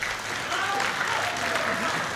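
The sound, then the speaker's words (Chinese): Steady applause from a live audience at a traditional crosstalk comedy show, a dense, even wash of clapping that holds at one level for the whole moment. “咱们热烈掌声有请二位。 感谢朋友们稀稀拉拉的掌声”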